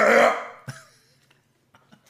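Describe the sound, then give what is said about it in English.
A throat clearing opens with one loud, rasping burst, followed by a short fainter tail and a few soft clicks. “Let me just clear my throat.”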